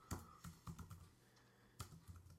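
Typing a message on a computer keyboard: a few soft, quiet key clicks, a short pause, then a few more.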